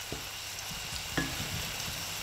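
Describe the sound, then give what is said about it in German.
Onions, ginger and chili sweating in oil give a steady, fairly quiet sizzling hiss, broken by a few soft stirring knocks and scrapes. “Als erstes schwitzt sie Zwiebeln, Ingwer und Chili in Öl an.”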